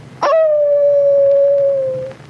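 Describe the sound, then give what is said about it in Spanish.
A sea lion howls in one loud, sustained tonal cry lasting about two seconds. It starts with a brief harsh burst, holds a steady pitch and drifts slightly lower before fading, heard alone. “Y con asombro, los habitantes de la Ciudad de México oyeron por primera vez aullar a un lobo marino.”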